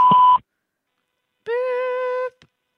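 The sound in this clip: A voicemail system beep: one short, loud, pure steady tone. After a pause comes a longer, buzzier sustained tone, then a tiny click.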